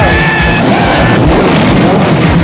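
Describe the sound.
A V8 Interceptor car engine roars loudly and without a break, a thick, rumbling growl with a thin, high whine riding on top early on.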